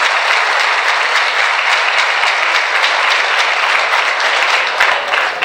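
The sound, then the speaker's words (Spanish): A crowd applauds at a town mayor's public address, with dense, steady clapping that holds at an even, loud level for the whole stretch without pause. “Por eso un gran aplauso para las personas valientes que lo hicieron.”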